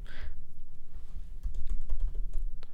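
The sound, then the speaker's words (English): Furious typing on a computer keyboard: many rapid, sharp key clicks in an uneven burst over a low, steady background rumble. “Type furiously.”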